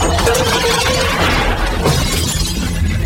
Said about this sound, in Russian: Гриша, разбивая мебель, падает.